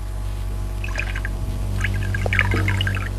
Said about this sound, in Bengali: আমাকে একটু জল দাও। দিচ্ছি